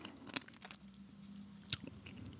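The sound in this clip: Someone chews a mouthful of plain chia seeds in soft, wet, crunchy bites, with two sharper crunches standing out among the quieter chewing.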